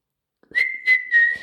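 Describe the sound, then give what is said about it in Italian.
A person whistles to imitate a whistling butterfly, a clear, steady high tone in three short bursts with brief gaps between them. “questa farfalla favolosa era proprio pazzerella, sapeva anche fischiare.”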